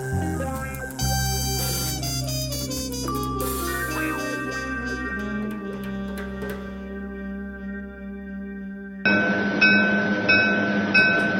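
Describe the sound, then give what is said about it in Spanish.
A train passes with a loud, steady rumble and sustained tonal droning, then a burst of dense rattling clatter near the end. “Nos encontramos en el último tren. Es el tren que pasa.”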